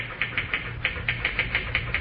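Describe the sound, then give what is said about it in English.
Typewriter keys are struck quickly in a brisk, even run of sharp clicks, about ten strikes over two seconds, with a low hum underneath. “Boy, you sure can pound that machine. Think I'll ever be able to type like that?”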